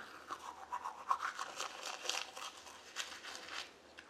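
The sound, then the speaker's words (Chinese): Brushing teeth with a toothbrush, a faint, soft bristly scrubbing in quick repeated strokes with a wet, crinkly texture. “我正在刷牙。”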